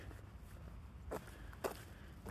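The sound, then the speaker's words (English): Footsteps on an outdoor walk on a gray, damp January morning: a few soft, spaced steps, faint against a steady low background. “So I'm out for a walk on a gray and damp January morning.”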